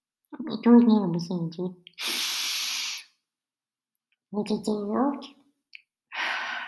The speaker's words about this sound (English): Pause. Take a deep breath.